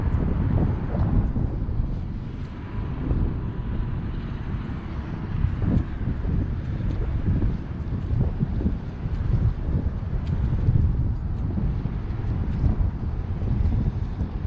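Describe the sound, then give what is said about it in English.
A helicopter flies overhead, heard as a steady low rumble mixed with gusty wind noise on the microphone, continuous and fairly loud with no voices. “There's a helicopter spinning over there.”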